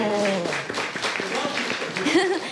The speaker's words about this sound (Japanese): 拍手